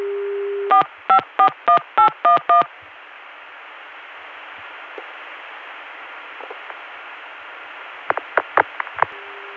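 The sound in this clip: Telephone dialing through a chain of long-distance switches: a steady low dial tone gives way to a rapid run of evenly spaced touch-tone beeps. A long stretch of hissing line static follows, with faint clicks, then a cluster of short sharp pulses near the end.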